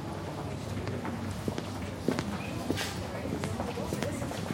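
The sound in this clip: Footsteps of people walking up through a building: a steady patter of steps with occasional sharper footfalls, heard under people talking.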